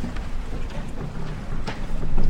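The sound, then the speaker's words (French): A boat meets the first choppy swells of the sea at nightfall. Rushing water and wind noise keep up throughout and grow louder toward the end. “À la tombée de la nuit, le bateau affronte les premiers remous de la mer”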